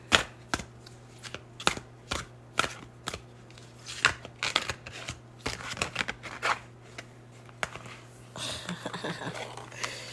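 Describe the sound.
Tarot cards being shuffled for a reading: many sharp snaps and flicks in an uneven rhythm, ending in a denser, rapid riffling burst. No one speaks.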